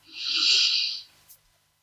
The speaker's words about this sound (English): Let's continue to breathe in a slow rhythm into your nostrils